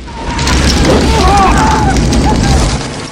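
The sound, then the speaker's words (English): Explosions tear through a film action scene after an arrow sparks a fire at an alcohol table, engulfing thugs and hunters: a sustained, heavy low rumble with dense roaring noise throughout, and a faint voice over it. “A fuse ignites off the table, more explosions consume nearby thugs and hunters.”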